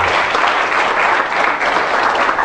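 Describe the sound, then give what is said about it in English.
Applause from a church audience: a loud, dense, steady roar of many hands clapping at once, sustained evenly throughout with no break. “Give Him a hand of applause.”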